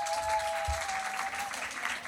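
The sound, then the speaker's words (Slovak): An audience claps at a gathering where guests are being welcomed, a brief, steady patter of applause at a moderate level. “môžete kľudne zatlieskať, že sa tešíte, že ste už tu. A ešte raz budete tlieskať, lebo by som vám chcel predstaviť našich hostí.”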